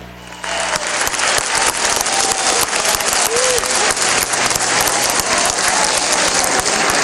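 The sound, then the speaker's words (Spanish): Loud, sustained applause from a crowd for the nation's clinical laboratory analysts, with dense, even clapping that starts just after the opening and continues without a break. “un aplauso a los bioanalistas de la República”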